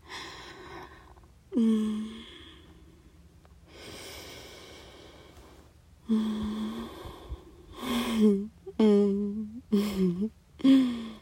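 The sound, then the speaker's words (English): Slow breathing done together: long airy inhales and exhales lasting a few seconds each, mixed with soft voiced sighs and murmuring breaths of varying loudness, with no words spoken. “Now let's breathe together for a little, okay?”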